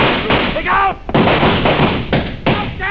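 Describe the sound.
A few sharp, heavy gunshot bangs break through tense, raised voices in a dramatic scene.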